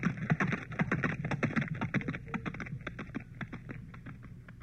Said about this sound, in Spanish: Y se alejó con su trote pesado en dirección de la cantera.